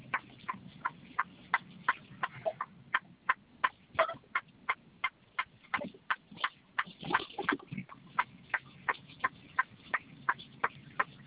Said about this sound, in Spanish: Un gallinero, no sé qué, una fábrica de pollo.